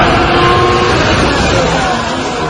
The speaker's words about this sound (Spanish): Así sonaban los Ferrari de Leclerc y de Hamilton durante el Filming Day que la escudería celebró en el nuevo trazado de Madrid